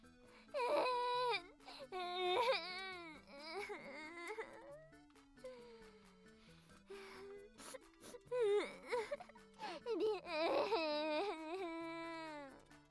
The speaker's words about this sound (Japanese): あ、泣きすぎてよだれが。